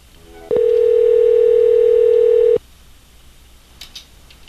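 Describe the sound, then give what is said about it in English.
A fake telephone ring sounds as one steady, mid-pitched electronic tone. It holds level for about two seconds, alone over faint background hiss. “That's great, fake ringing.”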